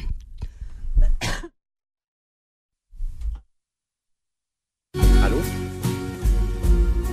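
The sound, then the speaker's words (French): A person coughing and clearing the throat: a rough cluster of coughs, a pause, then a single short cough before a louder stretch of sound. “pardon parce que je toussais”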